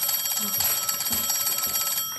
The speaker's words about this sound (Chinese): 哎，你怎么不接电话呀？ 你去接吧。